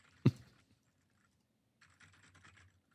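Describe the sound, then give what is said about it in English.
A keyboard shortcut typed on a computer keyboard: one sharp, loud key press, a pause, then a quicker cluster of lighter keystrokes. “Hang on, I got this quick command shift. D. A. N.”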